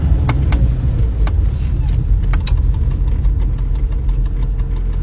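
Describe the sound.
A car engine runs at a steady, loud low rumble, holding a constant drone throughout with a few faint clicks and rattles on top and no voices.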